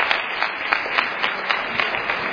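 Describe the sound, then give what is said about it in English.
Audience applause for a newly formed choir in Whitfield, dense and steady clapping with a dull, muffled quality that holds even throughout. “Okay, ladies and gentlemen, a round of applause, please.”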